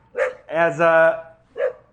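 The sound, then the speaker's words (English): A voice imitates dogs barking, voicing three dogs trapped inside a car: a short yelp, then a long drawn-out wavering bark-howl, then another short yelp, loud and alone. “And the three dogs in the car look on. No! Killer dogs, killer! The dogs cannot open the door, they're stuck in the car.”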